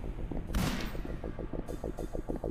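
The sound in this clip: Gunfire in a video game: one loud, bright blast stands out early over a steady, rhythmic pulsing backdrop of game sound, with fainter hissing bursts later.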